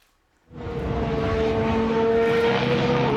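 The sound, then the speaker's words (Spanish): New Aston Martin Formula 1 engine bursting into life after a moment of near silence, then holding a loud, steady roar with a sustained tonal whine throughout. “Fernando Alonso ha podido probar el nuevo motor de la firma”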